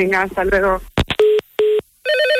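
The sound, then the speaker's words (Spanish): A telephone signals an incoming call with two short, identical electronic tones after a few clicks, followed by a brighter multi-tone chirp; a person talks just before. “Joder, me está llamando, Departamento Canino de la Policía Local, buenos días.”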